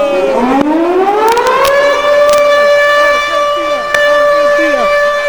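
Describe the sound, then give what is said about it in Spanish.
A siren sound effect rises in a sweeping wail, then holds a loud, steady tone with strong overtones, briefly dipping in level partway through, with faint voices underneath. “dame sirena”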